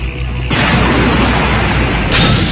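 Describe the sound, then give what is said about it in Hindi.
A bomb explodes to blow up a picket in a wartime battle, a loud roaring burst of dense noise that swells sharply after half a second and surges again near the end, with no voices. “मैं पीछे से जाकर इस picket के नीचे बम लगाकर उसे उड़ा दूंगा ये ये लो ये लगा दिया मैंने बम”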